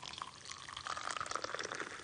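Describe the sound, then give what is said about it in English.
Hot water is poured onto sugar and yeast in a bowl for pastry dough, making a steady, bubbling trickle that carries on without a break for about two seconds. “1 spoon sugar. To activate it and make it work? Yeah, to make it. And then I guess a little water? Yeah, hot water.”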